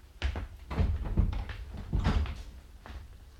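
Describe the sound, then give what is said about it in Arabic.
A door being opened by hand after a knock, with a few short, fairly loud clunks and rattles of the latch and door spread across the moment. “استني انتي انا هفتح له الباب.”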